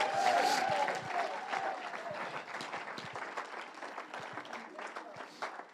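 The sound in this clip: Audience applause welcomes a speaker to the stage at a talk about knowing God: steady, dense clapping that carries on throughout and eases slightly in volume toward the end.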